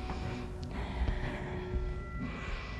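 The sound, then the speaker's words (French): Deep breathing from a patient told to breathe in during a stethoscope examination: soft, airy breaths rise and fade over a steady background hum. “Voulez-vous passer le cétoscope, s'il vous plaît? Respirez.”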